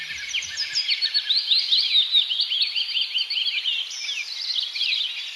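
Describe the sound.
Bird chirping sound effect: a continuous flurry of high, rapid twittering chirps and quick trills overlapping at a fairly steady, moderate loudness for several seconds, alone with no talk.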